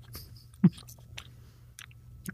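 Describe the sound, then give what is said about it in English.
Faint crunching of a man munching on an apple, with a few irregular crisp bites and chews and one sharper, louder crunch. “This man is munching down on that apple.”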